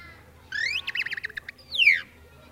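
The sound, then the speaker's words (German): Tit birdsong: a high rising whistle, then a quick run of trilled chirps and a long falling whistle, fairly faint over a low background hum. “Ja, na ja, aber vielleicht hört ihr doch lieber eine Meise.”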